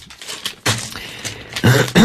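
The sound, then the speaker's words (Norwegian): Coughing and throat clearing from a person who has been coughing throughout, with mention of swine flu. A few short, harsh bursts come in close succession, heard alone. “Nå har jeg hosta min del gjennom hele programmet.”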